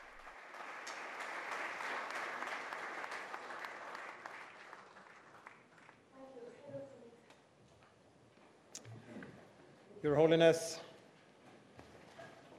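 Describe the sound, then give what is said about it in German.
Long standing applause for Pope Leo from those present at the World Food Programme in Rome: dense, even clapping for about five seconds that then dies away. A few faint scattered knocks and taps follow. “Die Anwesenden haben sich von ihren Sitzen erhoben und spenden Papst Leo einen langen und herzlichen Beifall.”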